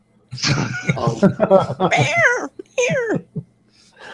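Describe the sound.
A cat yowls in protest after being sat on, giving several drawn-out, strained meows whose pitch bends up and down, loud and close together, ending with a short, clipped cry.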